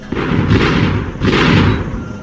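Guns fire on command in a Spanish-language radio drama: two heavy booming blasts about a second apart, each with a broad rumbling decay that fills the gap before the next.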